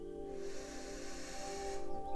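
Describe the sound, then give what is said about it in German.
A long, slow inhalation during a guided German morning breathing meditation: a soft, steady, breathy hiss lasting under two seconds over a sustained low musical drone. “Atme noch einmal tief ein.”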